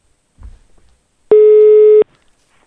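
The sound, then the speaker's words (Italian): Telephone ringback tone after a number is dialled: a single steady mid-pitched tone lasting under a second. It stands alone, with faint low rumbles before it and near silence after. “componi il numero e mettiamo in onda anche lo squillo.”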